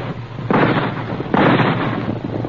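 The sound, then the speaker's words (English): Two loud rifle shots crack out in quick succession, about a second apart. Each leaves a long, rumbling tail that rolls on before fading. “At the sound of the rifle shots, the frightened caribou raised their antlered heads and began to run.”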